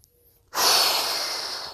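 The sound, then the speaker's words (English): A runner on a guided run lets out a deep exhale, a long, loud, breathy rush that starts abruptly after a brief quiet moment and slowly tapers off. “Obviously, I just exhaled”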